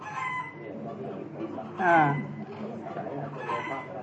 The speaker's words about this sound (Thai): ถ้าเขาบอกว่ามันร้องลักษณะนี้มีสองอย่างร้องด้วยความตกใจกับร้องเพื่อหาคู่นะมีสองอย่างนะที่ไก่มันเป็นแบบนี้นั่นแหละ